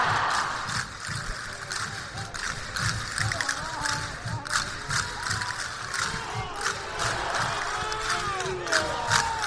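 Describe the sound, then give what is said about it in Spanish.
A crowd shouts loud cheers and vivas inside a church as a procession of patron saint images enters during a religious festival. The roar of massed voices is continuous and rises and falls in bursts throughout. “Vivas que ya se escuchan dentro de la iglesia, ¿verdad, compañero?”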